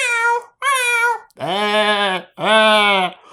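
Cat meowing in four loud, clear calls with nothing else under them: two shorter, higher-pitched meows, then two longer, lower, drawn-out ones.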